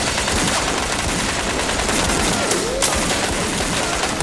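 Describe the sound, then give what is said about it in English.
Guns firing blanks on a film set: loud, dense, continuous rattling bursts of automatic gunfire that fill the whole stretch without a break. “Hey, Joker, these things are firing blank!”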